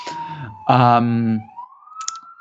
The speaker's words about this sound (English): Probably you can already hear in the background the sirens coming for them. It's a little New York-style interruption.